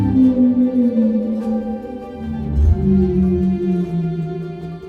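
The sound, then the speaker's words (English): Humpback whale song: loud, sustained low moaning tones rich in harmonics, their pitch drifting slowly and gliding between notes, with a deeper groan swelling near the middle. “Each population of humpback whales has its own set of songs, which change and evolve over time.”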